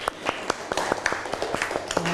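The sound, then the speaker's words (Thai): Students in a classroom clapping for a classmate: a run of many sharp, separate claps in a fairly steady rhythm, moderately loud throughout. “ปรบมือเพื่อนหน่อยเร็ว”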